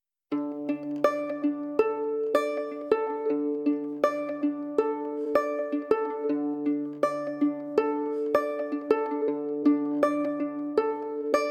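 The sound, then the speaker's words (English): A fiddle string plucked banjo-style instead of bowed: a steady stream of crisp, twangy plucked notes over a lower note that recurs, moderately quiet, with no voices. “She's plucking it, kind of like a banjo. So the sound you hear is a fiddle string being plucked rather than bowed.”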